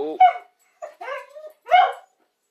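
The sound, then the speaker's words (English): A pet dog barks and yips in a few short, sharp bursts, some with a whiny, whimpering edge, with no talking. “That is Toby, by the way, our dog, whom we cannot control, for he is his own entity.”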